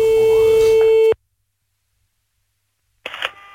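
Telephone ring tone on an outgoing call: one steady, mid-pitched tone lasting about a second, then a long silence, followed by a short, noisy burst near the end.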